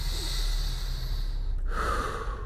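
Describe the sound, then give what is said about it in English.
A deep breath taken before a workout: a steady airy rush of inhaling for about a second and a half, then a brief break and a rougher, fuller exhale, with no talking. “Take a breath”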